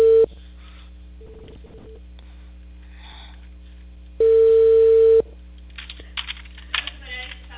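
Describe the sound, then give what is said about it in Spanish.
Telephone call tone on the line while a call is placed: a steady, low electronic tone sounds a few times, with its longest and loudest burst in the middle, followed by faint clicks and rustling. “Justo estoy llamando.”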